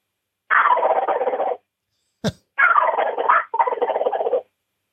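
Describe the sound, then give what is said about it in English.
Turkey gobbles made on a Hank Gobble call: three loud, rattling gobble bursts, each about a second long, with a single sharp click between the first and second. “What you just heard is the Hank Gobble call. That call will turn turkeys inside out.”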